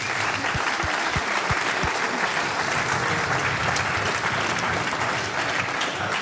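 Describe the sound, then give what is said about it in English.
Audience applause for the band's sound engineer at the end of a concert: dense, steady clapping that holds at an even level throughout. “I want you to give a big hand for our sound man, Sven Hoffman.”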